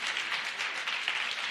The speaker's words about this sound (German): gebt ihm doch mal einen mächtigen Applaus.